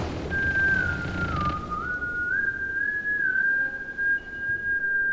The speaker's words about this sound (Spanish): De repente, un silbido rompió el silencio.